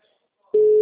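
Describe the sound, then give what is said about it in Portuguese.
Telephone ringing tone on an outgoing call: silence, then a single steady, loud, mid-pitched electronic tone that starts abruptly about halfway through and holds unchanged to the end. “tá chamando”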